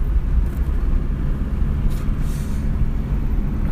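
Car being driven on the road, heard as a steady, continuous low rumble of engine and road noise without a break and with no talk over it.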